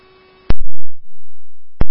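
Fire station dispatch alert tones come over a radio: a loud, distorted sustained tone between sharp clicking bursts, preceded by a fainter steady tone.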